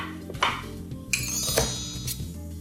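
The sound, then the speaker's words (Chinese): Knife work on a cutting board as food is sliced during stir-fry cooking: four sharp, distinct knocks spaced roughly half a second apart over a steady low background hum, with no talk. “没关系，就切片，随意切随意切，手留着就好。”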